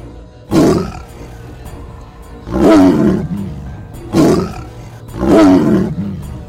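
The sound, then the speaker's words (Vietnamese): A tiger roars angrily from a large rock on the seashore toward mist over the sea: four deep, rumbling, full-throated bursts at fairly even intervals, loud and alone. “Tiểu Ngũ liền chạy đến một khối đá lớn trên bờ, hướng về phía sương mù xa xa trên biển mà rống lên. Tiếng hổ gầm vang trời, còn lộ ra một cổ khí giận dữ.”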